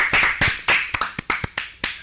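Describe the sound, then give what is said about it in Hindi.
A small group claps for a child's correct quiz answer, giving about a dozen sharp, uneven claps in a loose rhythm over two seconds. A faint tonal voice sound runs underneath. “जोरदार तालियां हो जाए अनिका के लिए”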